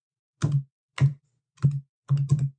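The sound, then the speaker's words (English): Someone types on a computer keyboard in a few soft, dull taps with short pauses between them. The last cluster comes as quicker double strokes, with nothing else heard. “If I type in”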